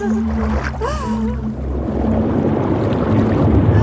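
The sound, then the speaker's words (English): Water lapping and sloshing around a person slowly sinking, a steady, loud churning wash with a low hum running beneath it. “The slow water seeps up between my fingers. It slides around me. Cradles me. Soon, only my hair floats.”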